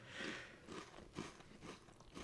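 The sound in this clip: Crunching bites of a noisy snack being chewed, several crisp bursts spread through a short, quiet stretch with no talking.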